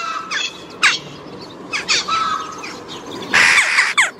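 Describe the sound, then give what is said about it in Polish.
Jackdaw calls, higher than those of rooks or crows: several short, sharp, bright notes come at irregular intervals over a low background hiss, with a longer, louder burst near the end. “Dzięki tym głosom łatwo jest stwierdzić obecność kawek w dużych stadach ptaków krukowatych.”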